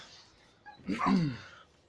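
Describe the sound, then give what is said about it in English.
A dog makes a single short, faint yelp in the background, with quiet before and after it. “My dog's safe. It's all good. Yeah, you might be able to hear him in the background.”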